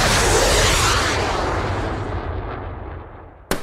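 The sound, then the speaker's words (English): Sound effect of a Sidewinder missile striking a dirigible balloon: a loud, broad rushing roar that slowly fades, then a single small, sharp pop right at the end. “let's have that sound effect of a Sidewinder missile deflating a dirigible with an anticlimactic pop again.”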